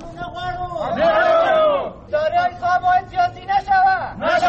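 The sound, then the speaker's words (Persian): Dismissed employees of Afghanistan's investment support agency protest at a demonstration with loud raised voices, first a long shout, then a run of rhythmic, chant-like bursts. “جزئیات بیشتر این گزارش را تمیم اغگر دارد که با صدای اعتراض کنندگان آغاز می شود.”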